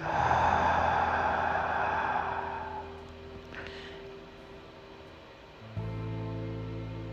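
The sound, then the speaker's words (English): A deep breath, drawn in through the nose and let out through the mouth, makes a long, loud, airy rush that slowly fades to near quiet, over a low steady tone. “So close your eyes and take a breath with me. Inhale through your nose and now through your mouth.”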